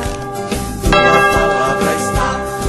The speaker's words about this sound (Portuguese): O sacristão tá animado, gente. Toca o sino, sacristão.